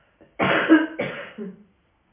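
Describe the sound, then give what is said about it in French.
Forceful kapalabhati yoga breathing exhalations: two strong, sharp, breathy bursts of air followed by a softer third, with no talking. “Soyez bien présent au souffle, au Kapalabhati.”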